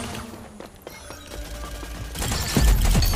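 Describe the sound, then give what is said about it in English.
Rapid machine-pistol gunfire in a video game firefight, with quieter mechanical clicks and shots at first, then louder, denser bursts of fire in the second half. “Ah, machine pistol's deadly, man. You can't outgun that. So where's that fire coming from, that additional spread?”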